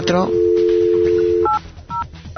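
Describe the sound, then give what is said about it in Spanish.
A telephone is dialing a voicemail number. A steady dial tone holds for over a second, then a few short two-note keypad tones follow. A brief voice is heard at the start. “Oye, un momento. Vamos a llamar al buzón de voz. Vamos a llamar, venga.”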